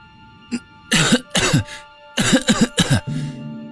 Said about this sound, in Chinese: 一股霉变的气息混杂着扬起的灰尘充斥鼻腔，呛得他忍不住捂着口鼻咳嗽了起来。